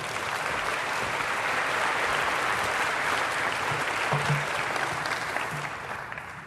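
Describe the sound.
Audience applause welcomes a guest speaker at a morning gathering at a Christian university. The clapping is steady and full, holds for about six seconds and eases slightly toward the end.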